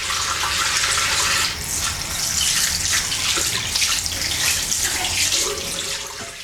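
Tap water runs steadily while hands are washed beneath it, a loud, unbroken hissing rush with slight splashing shifts and no voices.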